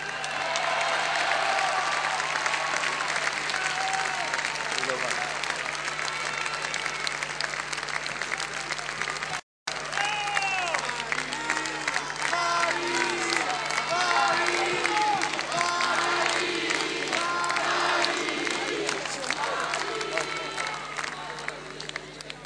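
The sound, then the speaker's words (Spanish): Applause from a crowd at an election victory speech: loud, dense clapping and cheering that runs continuously with crowd voices mixed in, broken only by a brief cut near the middle. “Mira, viene María, pide un aplauso para María.”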